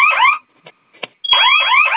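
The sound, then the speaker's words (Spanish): A security alarm keeps sounding after its code was entered three times, a loud electronic warble of repeating sweeping tones that breaks off briefly with a couple of faint blips, then resumes just as loud. “La alarma sigue sonando, ¿no, señorita? Sí, sigue sonando. ¿No se apagó la alarma cuando ingresó su clave el joven? No, ya le ingresó 3 veces y no se apaga.”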